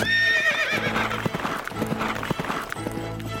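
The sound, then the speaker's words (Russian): A horse gallops downhill at full speed carrying a knight, its hooves beating a quick, steady clip-clop rhythm, with a loud whinny near the start. “Рыцарь помахал ей копьем. «Будь здорова, матушка-старушка!» Ой! Крикнул он и поскакал под гору во весь опор.”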